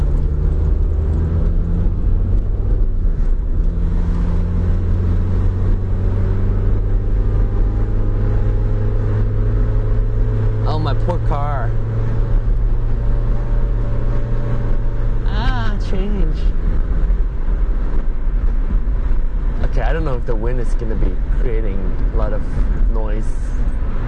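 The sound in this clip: A car drives along a street with a window open. A steady engine and road hum with wind noise runs throughout, and people talk over it.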